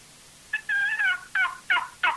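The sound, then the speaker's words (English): Turkey yelps played on a hand-held turkey call, a series of raspy, high-pitched yips in a loose, uneven rhythm, clear and alone with no talk. “that little sweet yip. And you can cluck on a box or on a slate. That sound is what I kill turkeys with.”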